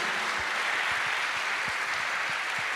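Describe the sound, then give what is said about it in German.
A church audience applauds, a steady, dense stream of clapping that stays fairly soft and even throughout. “Let's give the Lord a very big hand for him.”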